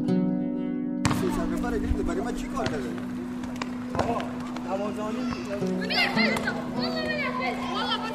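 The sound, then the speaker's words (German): Children play in the dark in the yard of an empty primary school in Düsseldorf that houses refugees, early in the evening. Many overlapping young voices shout, call and chatter in a lively, continuous din over a steady low hum. “Es ist früh am Abend und die Kinder spielen im Dunkeln auf dem Hof.”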